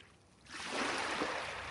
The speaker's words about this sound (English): Waves lapping the beach, wind bending the trees and the tides pulling the pebbles along the shore.